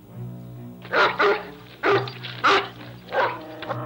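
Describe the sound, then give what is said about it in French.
A female dog barks several times, sharp, fairly loud barks in an uneven rhythm with short gaps, over a low, steady droning hum. “Tu entends ? La chienne du monde.”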